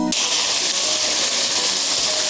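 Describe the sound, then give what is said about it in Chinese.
Diced bamboo shoots and shiitake mushrooms stir-fry in hot oil in a heated pan. A loud, dense sizzle starts abruptly and stays steady and unbroken throughout, with no talk. “油热后倒入笋丁跟香菇进行煸炒”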